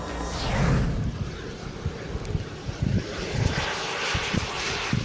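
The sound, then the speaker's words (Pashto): An unmanned experimental aircraft from a UK research project, a drone with no moving parts, flies with a steady engine drone mixed with rumbling wind noise and low gusty thumps, without talk. “د مګما په نامه دغه الوتکه په خپل ډول کې یوه خاصه بی پیلوټه الوتکه ده.”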